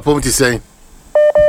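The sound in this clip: Two short, identical telephone keypad tones sound in quick succession, steady and loud, right after a brief burst of speech.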